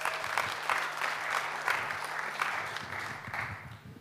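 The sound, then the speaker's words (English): A church audience applauds to welcome a guest speaker. The clapping is moderate and continuous, with a low steady hum underneath and no talk over it. “So put your hands together as we welcome Nam as he comes and shares with us.”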